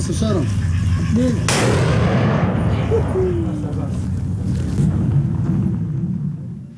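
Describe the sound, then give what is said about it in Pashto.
Artillery fire during a military offensive near Mosul, Iraq: a loud, sustained rumble with one sharp blast early on, under faint background voices. “صدای توپخانه در ساحه اوایل امروز شنیده شده است.”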